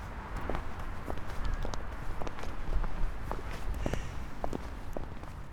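Footsteps of people walking outdoors form a steady, even run of soft thuds. They stay fairly faint, and no one speaks.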